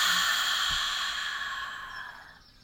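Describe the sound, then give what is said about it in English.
A single deep breath released slowly in a calm meditation setting, a soft, airy whoosh of exhaled air that starts full and fades steadily over about two and a half seconds, with no talking. “So let's take a deep breath in. And allow it to permeate and release.”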